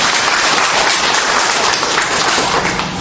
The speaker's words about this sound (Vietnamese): Một tràng pháo tay thưa chị.